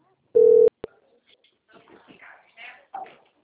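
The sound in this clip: A telephone ringing tone while a call is being placed, heard as one short, steady mid-pitched tone pulse, then a brief click and faint, soft voices.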